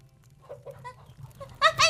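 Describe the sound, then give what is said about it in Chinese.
Chickens cluck at feeding time, a few short tonal calls over a steady low hum, then a louder burst of clucking near the end. “那鸡还没喂呢，奶奶去喂鸡啊。”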